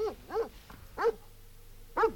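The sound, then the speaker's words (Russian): Dogs bark four times in short, sharp, fairly faint barks. The first two come close together and the last two are spaced apart, with a low hum beneath. “Что это? Собаки”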